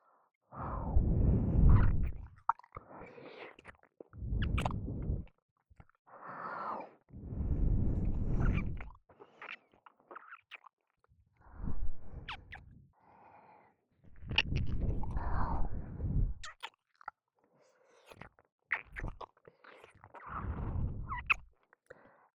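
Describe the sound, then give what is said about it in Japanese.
Wet ear-licking mouth sounds for ASMR come in soft, breathy bursts of slurping and smacking that return again and again with short pauses between. “君を気持ちよくさせる耳舐めなら、私が世界で一番うまいと思うよ。多分。”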